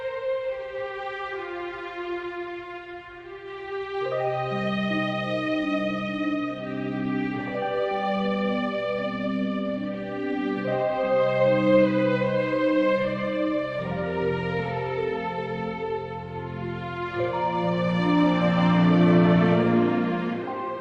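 Title theme music from a shocker thriller film: slow, sustained instrumental music with long held tones and a gently moving melody, steady in loudness and swelling slightly toward the end.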